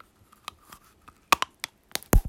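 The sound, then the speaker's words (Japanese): A candy case is bitten open with teeth: faint clicks and light crunching give way to a few sharper cracks toward the end as the tight case gives. “じゃあケースを噛んで開けていきたいと思いますあ普通に開くかな普通にあやっぱちょっときついかも噛みます”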